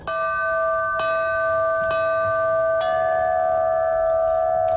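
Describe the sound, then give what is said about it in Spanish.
Church bells ringing a peal composed for the 12 August solar eclipse: four ringing strikes about a second apart, the last left to hum and slowly decay. “¿Y qué es esto? Pues es un repique específico para el eclipse del miércoles”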